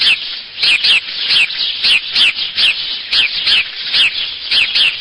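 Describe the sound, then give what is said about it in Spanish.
A house sparrow (Passer domesticus) chirps loudly and alone, with many bright, high chirps repeated in a quick, steady rhythm. “Está el más común de todos, el gorrión común, también conocido como pardal. Su nombre científico es Passer domesticus.”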